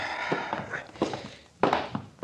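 Footsteps go down stairs as several heavy, dull thuds land at uneven intervals.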